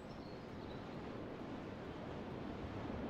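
Soft ocean surf in the video game Jazzpunk: a faint, continuous wash of breaking waves with a hissy, noise-like texture and no distinct individual crashes.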